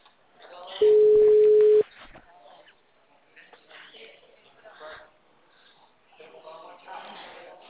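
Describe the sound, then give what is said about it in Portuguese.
A telephone busy tone sounds as a single steady beep, even in pitch, lasting about a second and much louder than the talking voices around it. “Alô? Alô? O número está ocupado.”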